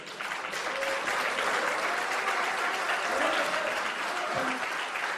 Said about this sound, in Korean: 다음 연설자는 기호 1번 박용진 후보입니다. 뜨거운 박수로 맞이해 주시기 바랍니다.